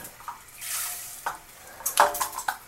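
Rice poured from a cup into water in a pot on the stove makes a soft swishing rush, then a few light clinks and scrapes of cookware, all fairly faint.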